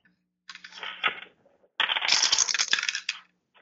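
Dice clatter across a table for strength rolls in a tabletop role-playing game, in two bursts of quick, hard rattling clicks, the second longer and denser, with no talk over them.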